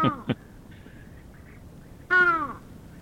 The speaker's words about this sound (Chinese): 它的声音呢、嗯、就没有那么的有观赏性、哦、被形容为像沙哑感冒的乌鸦它的叫声，我们来听听看。